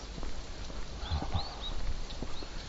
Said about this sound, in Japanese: なんかスキーのストックみたいなのを両手に持って歩いている初老の女性がこちらに向かってくるぞ。